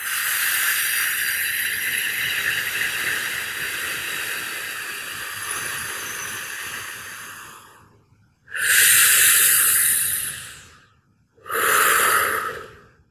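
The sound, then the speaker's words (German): Deep breathing during a relaxation exercise: one long, airy inhale lasting several seconds, followed by two strong, hissing exhales separated by a short pause, with no voices. “Und das macht natürlich Geräusche und das klingt dann ungefähr so, wenn du die Luft einatmest. Und wieder ausatmen.”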